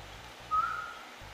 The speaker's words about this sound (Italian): dici ciao col fischio della gomera